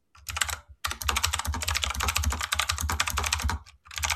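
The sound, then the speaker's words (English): Rapid typing on a mechanical keyboard, a dense stream of sharp, crisp key clicks broken only by brief pauses near the start and the end. “a mechanical keyboard now, so now you can hear everything. You type really fast.”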